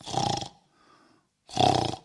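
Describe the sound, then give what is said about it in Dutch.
A man's voice imitates loud snoring: two long, rasping snores separated by a faint, quiet breath. “Vader Janus hervatte zijn zaagwerk.”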